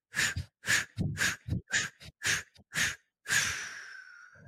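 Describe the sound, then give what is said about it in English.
Forceful breaths pushed out through the mouth in a quick, rhythmic series during a meditation breathing exercise, then one long, deep drawn breath that slowly trails off; no talking. “we breathe in deeply through the nose, long and deep, one long deep breath in through the nose. And then 8 powerful breaths out through the mouth.”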